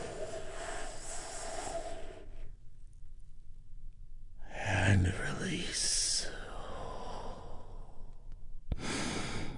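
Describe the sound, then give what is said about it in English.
A big, deep healing breath taken during a guided relaxation exercise: a long, slow, airy inhale and a hissing exhale, soft and breathy between quieter stretches. “We do this by taking a big, deep, healing breath all together.”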